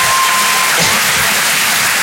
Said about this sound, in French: Il y a des gens qui ont arrêté d'applaudir dès qu'ils ont vu ma tête.